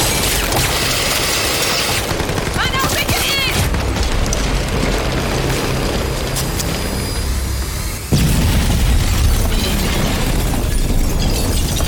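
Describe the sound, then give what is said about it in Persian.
A grenade explodes in the middle of an armed standoff. A sudden heavy blast cuts in late, after a long stretch of dense, rumbling noise, and is followed by a loud, sustained roar of debris and rumble. “حالا نارنجک پناه بگیرید.”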